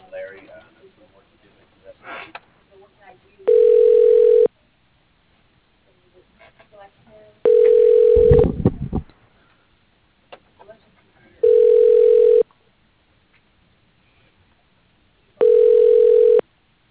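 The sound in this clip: Telephone ringback tones sound while a call is transferred to an office extension: four steady electronic tones, each about a second long and evenly spaced, with faint low noises between them.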